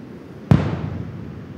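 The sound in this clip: A single sharp detonation as a washed-up sea mine fitted with several fuzes is blown up where it was found on the shore: a sudden loud blast that decays into a dull, fading rumble.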